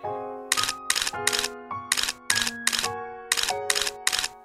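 Camera shutter clicks as a photo is taken: nine sharp, bright bursts in an uneven rhythm, layered over steady sustained musical tones.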